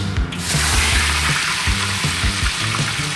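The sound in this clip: Loud, steady sizzling of mandarin fish laid into hot oil in a wok, a dense hiss of frying that runs throughout, with regular low knocking underneath.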